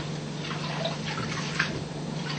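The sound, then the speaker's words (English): Rice is rinsed in water by hand, squeezed gently and washed repeatedly until the water runs clean. The result is a soft, continuous swishing and sloshing with faint drips, steady and low throughout. “You can repeat it again till the water is clean to you. Yeah, wash it again.”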